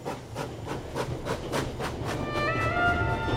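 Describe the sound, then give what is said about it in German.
A train pulling out of Potsdamer Bahnhof in Berlin sets up a steady, fairly quiet clickety-clack of wheels over rail joints. Thin, high metallic tones rise over the rhythm near the end. “Am Potsdamer Bahnhof stieg er in den erstbesten Zug, der Berlin verließ.”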